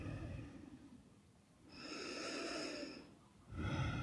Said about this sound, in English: And then take another deep inhale and exhale.